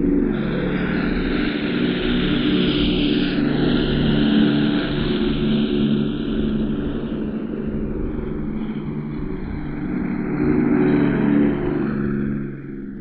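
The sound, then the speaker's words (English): Avro Lancaster bomber taking off down a runway in Yorkshire, its engines giving a loud, continuous roaring drone that holds steady throughout with a slight wavering in pitch and eases off only at the very end. “Another Lancaster zooming down the runway.”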